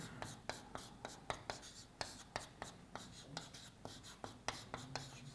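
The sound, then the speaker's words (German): A pen writes by hand as notes are jotted down, with many short, scratchy strokes in a quick, steady rhythm, faint throughout. “ich schreibe es einfach mal so ein bisschen flusig hin”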